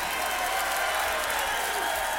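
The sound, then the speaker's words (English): Audience applause after a live song performance: a continuous, dense wash of clapping with crowd noise mixed in, holding steady for the whole stretch. “I'd like for everybody to keep those round of applause together.”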